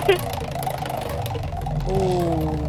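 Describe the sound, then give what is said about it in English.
A prize wheel spinning in a radio station studio gives off a rapid run of ticking clicks over a low rumble, and a voice briefly rises over it near the end. “Well, let's spin the wheel, see what we can get you.”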